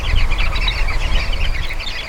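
A flock of sociable birds chattering: many overlapping chirps and calls form a busy, continuous babble over a low rumble, with no talk.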